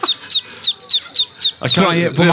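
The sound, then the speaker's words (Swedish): High, thin peeps from a tiny duckling, seven short chirps, each sliding downward in pitch and evenly spaced, loud and clear, with a person starting to talk over the last one. “Dig och en liten ankunga. Nej, men hör.”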